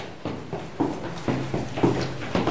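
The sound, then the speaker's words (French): Footsteps going down a flight of about fifteen stairs in an old house in Brittany, a handful of evenly spaced, soft footfalls in a steady walking rhythm. “Alors on descend encore quelques marches, une quinzaine.”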